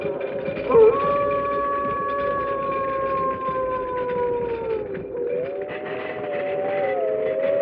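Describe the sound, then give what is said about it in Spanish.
Wolves howl as they close in from all sides: several long, sustained howls overlap, their tones slowly sliding downward before a new howl rises near the end, loud and continuous. “El aullido de los lobos, en cambio, se acercó cada vez más, como si ellos se fuesen aproximando hacia nosotros por todos lados.”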